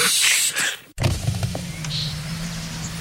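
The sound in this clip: A car's electric window being lowered: after a sudden break, a steady low motor whine runs for about two seconds.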